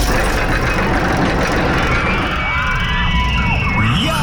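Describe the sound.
A rollercoaster rides along its track at an amusement park, making a steady, loud rumble with faint higher whines gliding over it.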